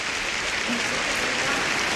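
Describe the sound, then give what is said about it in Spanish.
Sustained applause rises from an audience, with the Pope among those clapping. The dense, even wash of claps has no distinct individual hits and holds a steady level throughout. “Hasta el Papa aplaude, ¿eh? Aplaude todo el mundo.”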